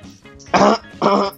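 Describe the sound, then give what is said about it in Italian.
Two coughs from a person with a cough, each a short, rough, fairly loud burst, separated by a brief pause, with only faint low sound before them. “No, niente, ho la tosse.”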